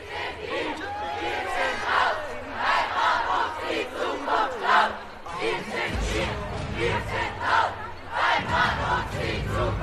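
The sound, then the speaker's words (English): A large rights protest crowd at the corner of Flinders Street and Swanston Street in Melbourne, with loud massed shouting and chanting that rises and falls in a rhythmic pulse throughout. “rights protesters are currently staging protests right around the country. The most disruptive of them is here. This is at the corner of Flinders Street in Melbourne and also Swanston Street.”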